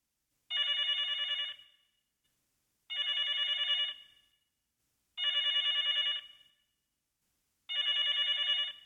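A telephone bell rings four times, each bright, trilling ring lasting about a second and separated by even pauses, heard alone and fairly faint.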